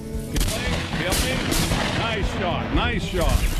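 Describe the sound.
A shotgun blast fired at a white wild turkey gobbler on a spring hunt in West Virginia: a sudden loud crack followed by a long rumbling, ragged decay.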